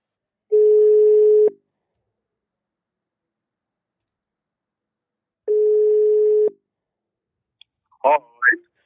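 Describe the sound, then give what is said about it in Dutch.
A telephone call rings through: two steady, evenly pitched ring tones about a second each, separated by a long silence, followed by a brief voice at the end. “zullen we Willy eens even, even bellen? Ja, doe het. Even kijken of dit lukt.”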